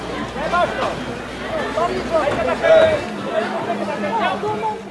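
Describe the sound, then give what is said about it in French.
Crowd chatter fills a covered market hall at a social, solidarity and eco-friendly market in Montreuil, Croix-de-Chavaux: a steady babble of many overlapping voices with occasional louder exclamations. “On est à Montreuil, à Croix-de-Chavaux, sous la halle du marché.”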